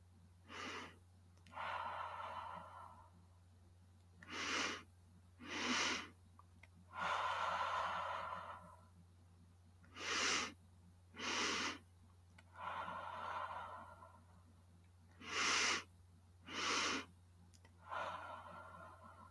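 Slow, deep breathing during a meditation session: several unhurried cycles of airy intakes and longer breathy exhales, quiet and evenly spaced, over a faint low steady hum.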